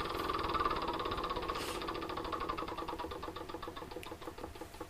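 Rapid ratcheting clicks from The Game of Life board game spinner being spun, a steady run of sharp ticks whose spacing widens as the spinner slows toward the end.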